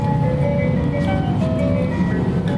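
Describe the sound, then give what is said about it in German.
Closing music played as the shops shut: a simple melody of sustained, chime-like tones at a steady level over a low background hum. “Die Abschlussmusik läuft. Nee, das wäre Auld Lang Syne. Das läuft hier immer, wenn Läden zumachen.”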